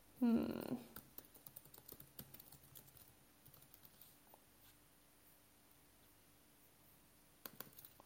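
Faint, irregular keystrokes tap on a computer keyboard for several seconds, following a brief louder sound at the very start.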